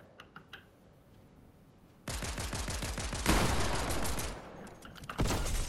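Pistol gunfire in a video game: a quiet start with faint clicks, then sudden loud bursts of rapid cracking shots, many in quick succession, a brief lull, and another burst at the end.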